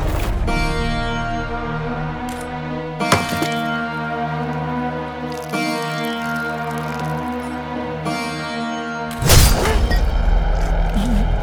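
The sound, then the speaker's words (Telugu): A coconut is struck to break it open at the start of a puja, with a few softer knocks followed by one loud, sharp crack near the end, over a steady tonal background. “ఈ కొబ్బరికాయ కొట్టి మీ బంగారులన్నీ చేతులతో ఈ భూకబ్జ పూజని ప్రారంభించండి.”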